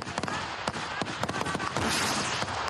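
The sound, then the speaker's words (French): Gunfire with live bullets during Ukrainian soldiers' trench training: dense, rapid bursts of sharp cracks and bangs that overlap into near-continuous loud firing. “Les combats sont à des centaines de kilomètres, mais les balles, elles, sont bien réelles.”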